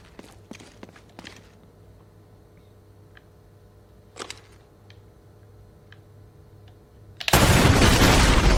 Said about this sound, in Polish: Pewnie w beczki trzeba strzelić, słuchajcie.